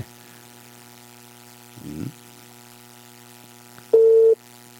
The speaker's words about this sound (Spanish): Está parece ocupado. ¿Eh? Suena parece ocupado, ¿no?